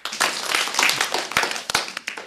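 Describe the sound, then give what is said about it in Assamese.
An audience clapping hands loudly for a child who has just sung: lively, uneven applause from many hands that briefly thins, then picks up again near the end. “এতিয়া আমি খ্যাতিৰ কাৰণে কি কৰিম, ডাঙৰকৈ হাত চাপৰি বজাই দিম।”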